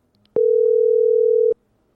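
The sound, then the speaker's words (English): A steady telephone dial tone sounds while a call is being placed: one loud, unbroken pitched hum lasting a little over a second, framed by a faint click at its start and end. “So let me get him on the phone.”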